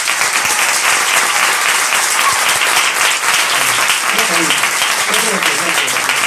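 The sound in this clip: Loud applause from an audience asked to stand at the close of a live flamenco performance, dense continuous clapping that holds steady throughout, with a voice faintly heard near the end.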